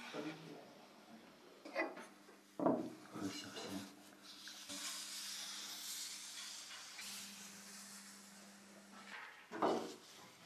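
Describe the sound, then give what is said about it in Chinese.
Soft, dry paper rustling as a handwritten Buddhist sutra scroll over 1,000 years old, a Northern Wei copy of the Avatamsaka Sutra, is unrolled. A few crinkly bursts rise over a faint, steady hiss and a low hum, all quiet. “今天，他为我们打开了一幅1000多年前珍贵的写经卷。”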